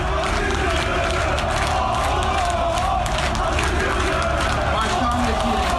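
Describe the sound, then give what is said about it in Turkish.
Loud, continuous chanting and cheering from a crowd of football club members in a stadium during a club congress, rising slogans blending into a dense roar of many voices. “Üyeleri selamladığı sırada Aziz Yıldırım sloganları yükseldi. Aziz Yıldırım da stattaki yerini aldı. Üyelerin tezahüratına işte böyle eşlik etti.”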